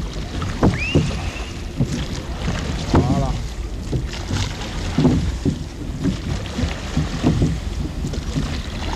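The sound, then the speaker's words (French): Oars pull a rowing boat through water as a coxswain steers the crew at Le Barcarès. Repeated splashing strokes carry on under steady wind noise. “Allez, planter à tribord et ramener à bâbord. Allez, à fond. Et on dénage un peu.”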